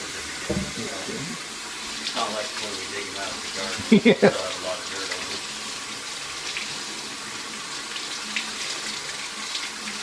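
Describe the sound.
Tap water runs steadily from a faucet while potatoes are washed under it, a constant broad hiss that lasts the whole clip.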